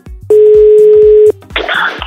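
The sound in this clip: A steady telephone dial tone sounds while a call is being placed: one level, unbroken tone of about a second, followed by a short burst of rough, hissy noise.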